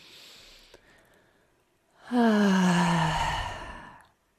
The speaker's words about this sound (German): Ein richtiges Einatmen. Machst du das nochmal? Komm, wir machen zusammen.